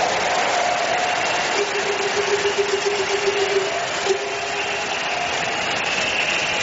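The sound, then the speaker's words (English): A church audience applauds to praise the Lord at the close of a service. The clapping forms a dense, sustained wash at a steady level for several seconds, with faint held tones underneath. “Give the Lord the biggest hand of praise as we close tonight.”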